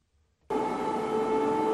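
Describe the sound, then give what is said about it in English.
Air raid sirens sound over Kyiv during an overnight Russian missile and drone attack. After a brief near-silence, a loud, steady, sustained wail starts abruptly and holds an even tone to the end. “Thousands of residents took shelter underground as sirens blared through Kyiv overnight.”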